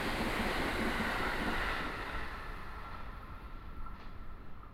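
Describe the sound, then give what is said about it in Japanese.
A limited express train passing, a broad rushing roar that is strongest at first and then gradually fades. “おお、サンダーバード。 え、通過待ちの臨時の特急ってあんただったの？”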